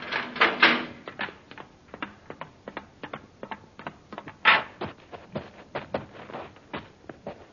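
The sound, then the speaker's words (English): Mechanical clicking and ratcheting as a spacecraft's outer hatch is opened, a rapid, uneven run of many sharp clicks with a few heavier clanks, muffled in tone and with no voices. “All right, open the outer hatch.”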